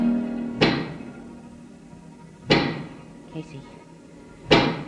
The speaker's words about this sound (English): do you hear that knocking? I sure do. That is the sound of a giant pick.